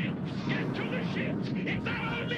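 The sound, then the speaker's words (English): Gunfire from a scene in an animated robot film: a dense, unbroken barrage of loud, crackling bursts and blasts that stays at steady loudness throughout with no clear gaps. “He's gonna shoot Optimus Prime in the back of the head.”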